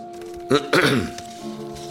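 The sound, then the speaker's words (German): A person clears their throat in a German drama, a short rough rasp followed by a longer, fuller gravelly clearing, heard alone over a faint steady tone. “Es fing an mit einem Räuspern.”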